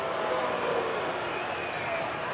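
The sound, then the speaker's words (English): Steady murmur of a spirited crowd at a ballpark during an evening baseball game in the first inning with the Angels batting; a dense, even wash of indistinct voices with no clear cheers or claps standing out. “This seems like a good baseball crowd tonight. Spirited really, crowd. Yes. I agree. Yeah, there's a little energy here at the ballpark tonight”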